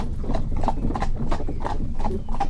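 Hooves of a seven-year-old purebred Normandy cob mare clip-clop in a steady, even rhythm, each hollow clop distinct and fairly loud over a low rumbling background.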